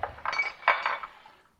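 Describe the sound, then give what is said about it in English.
A fork clinks and scrapes against a bowl while mixing wet ingredients with sour cream. Several quick, light, bright taps follow one another, then the sound fades out. It is heard alone, with no voices. “we're going to combine our wet and dry ingredients. So I'm just using a fork here. Oh, to mix up the wet ingredients?”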